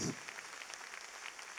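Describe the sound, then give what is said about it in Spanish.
A church audience applauds the musicians of a worship band, a faint, even patter of clapping that continues throughout. “Vamos a darle un aplauso al Señor por nuestros hermanos del combo del Rey.”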